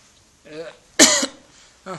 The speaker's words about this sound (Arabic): ظهرت الآن، عندي سعلة، وربما أخذ يعني فترة وأنا أسعل في الدرس